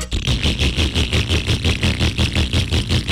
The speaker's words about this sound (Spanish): Si su moto suena así...